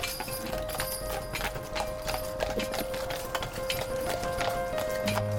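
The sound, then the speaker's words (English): Horse-drawn carriage travelling through city streets: steady clip-clop of hooves on a hard surface, many quick, even hoofbeats continuing throughout at moderate volume, with no talking. “You're marched out of the hotel and into a carriage, and then that bundles its way through the city towards the palace.”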